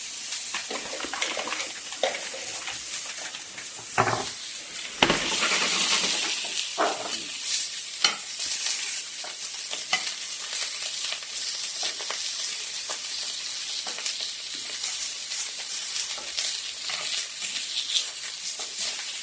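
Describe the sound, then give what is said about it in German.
Butter sizzles in a frying pan while a sprig of thyme and garlic are basted, a steady bright hiss with a few louder bursts around the middle and clear, unbroken frying throughout. “Zweig Thymian, ein bisschen arrosieren.”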